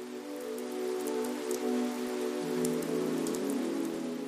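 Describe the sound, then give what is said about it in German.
Gentle rain drums softly on a quiet street, a faint, steady patter of many small drops with no voices or other sounds. “Um dich herum ist die Straße still. Nur das leise Trommeln der Regentropfen begleitet dich.”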